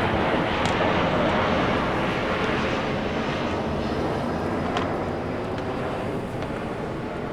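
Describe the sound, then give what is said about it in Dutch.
Airplanes fly overhead in a loud, continuous roar that holds almost level throughout and eases only slightly toward the end, with no voices. “Dat hoor je normaal gesproken niet, hè? Maar het is echt ontzettend luid. De vliegtuigen?”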